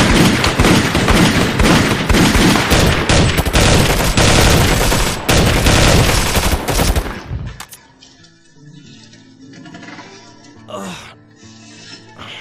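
Rapid, continuous automatic gunfire aimed at a boss rattles loudly for about seven seconds, then cuts off, leaving only faint, scattered sounds.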